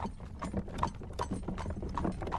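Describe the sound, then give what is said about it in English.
A pony pulling a trap in Limerick clip-clops along in a steady, even rhythm of many light hoofbeats, fairly faint and without talk. “enjoying a jaunt on their pony and trap in Limerick”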